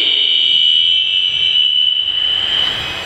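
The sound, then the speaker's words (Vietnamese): Airplane engine noise: a loud, steady roar with a sustained high whine over broad rumbling, continuous and unbroken throughout, with no voices. “hôm nay chúng ta bị trở ngại nhiều quá, ồn ào do cái tiếng máy bay, rồi do trang âm nữa.”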